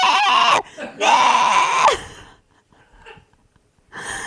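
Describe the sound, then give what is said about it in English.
Women shriek inside a space capsule just after landing, loud and distorted high screams in two long bursts, then quieter breathy sounds before another shriek begins. “it's so loud. All it sounds is just like shrieking.”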